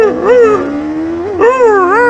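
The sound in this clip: Dogs howling loudly together, their overlapping voices wavering up and down in pitch over a steady held tone. The howls come in two swells.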